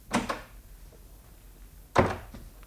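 Door being opened in a house: two dull wooden clunks, each with a short double knock, spaced about two seconds apart, with near quiet between them.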